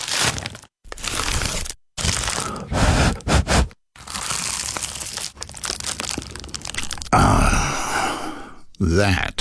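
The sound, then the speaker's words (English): Crunching bites into an award-winning Dad's Pies pie: several bursts of flaky crackling and crushing separated by brief silences, then a contented sigh and a short spoken remark at the end. “was the sound of an award-winning dad's pie.”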